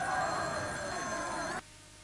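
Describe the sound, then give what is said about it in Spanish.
A telephone rings with a sustained, buzzing, harmonic tone at moderate level, then cuts off abruptly, leaving faint background hiss. “Un momento, una llamada de última hora.”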